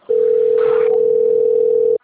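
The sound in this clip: A telephone call tone on an outgoing call, one loud continuous mid-pitched tone held for nearly two seconds over faint low background noise.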